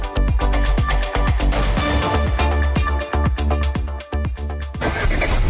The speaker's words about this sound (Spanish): Hay camionetas que sirven para el día a día y está la Grand Avenue de JMC que va más allá. Respaldada con garantía de por vida en su motor Ford Puma 2.3 Turbo Diesel.